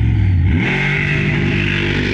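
A monster truck engine revs at a drag race start, a loud, low, continuous roar whose pitch climbs in the first half second and then holds steady and rough, with no voices.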